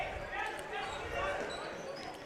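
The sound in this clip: A basketball dribbled on a gym floor during a high school game between McFarland and Baraboo at Baraboo High School, repeated bounces blurred beneath a steady, loud crowd murmur with no clear pause.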